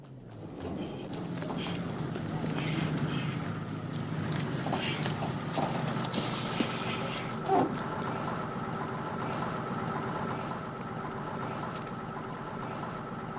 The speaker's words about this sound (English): We hear a vehicle driving off.